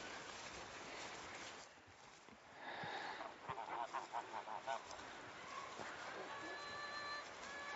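Geese honking, a quick series of several nasal honks bunched in the middle, with a few more calls later, over a steady rumbling background.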